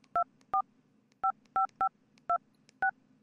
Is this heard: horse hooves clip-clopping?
no